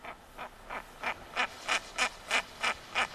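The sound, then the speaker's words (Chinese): Repeated calls of a female bird: ten short, harsh, nasal notes in a steady, even rhythm, faint at first and growing louder before holding level. “那我们再听另外一款雌鸟的叫声，我们来感觉一下”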